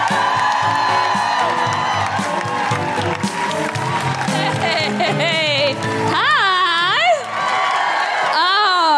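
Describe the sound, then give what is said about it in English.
A live comedy audience in York cheers and whoops loudly to welcome a comedian onto the stage. The roar stays dense and sustained throughout, with several shrill rising and falling whoops and shouted voices standing out near the end. “And make very excited noises. Break laws if necessary to welcome the incredible Kiri Pritchard-McLean.”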